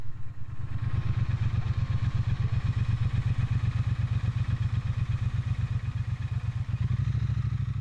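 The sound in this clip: Motorcycle engines at a biker meeting spot at Torfhaus in the Harz: a loud, steady, low idle with rapid, even throbbing pulses that run through the whole clip.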